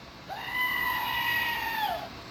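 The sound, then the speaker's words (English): A single drawn-out electronic goat bleat from a novelty emergency goat screamer gadget. The nasal, steady-pitched cry lasts nearly two seconds, rising at its onset and dropping at the end, and plays alone. “I saw this on Amazon, and I made David get it. And it is the emergency goat screamer.”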